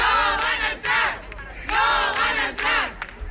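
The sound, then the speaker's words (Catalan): About 200 neighbours in Badalona chant a short Spanish slogan against immigrants seeking shelter at a parish, the crowd shouting it in loud, rhythmic bursts with brief breaks between repetitions. “Aquest càntic de "No van a entrar" era el que dedicaven 200 veïns a una quinzena d'immigrants que intentaven buscar acollida en una parròquia de la ciutat.”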